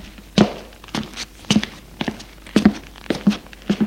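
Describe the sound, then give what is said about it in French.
Footsteps of a brother and sister climbing the stairs to the upper floor toward their bedrooms in a dark house: a measured series of dull thuds at a slow, fairly even pace, each step short and clear with no voices. “Et le frère et la sœur montent à l'étage pour aller à leur chambre.”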